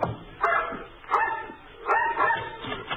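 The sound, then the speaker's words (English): A mongrel dog barking on a rickety porch, a few short, yappy barks at a steady rhythm, fairly loud with no talk. “They stared at us while we went up the rickety porch, the dog barking at our heels.”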